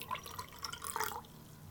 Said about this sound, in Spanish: Y una de las maravillas que tenemos, a ver si se dan cuenta que suena, es el agua.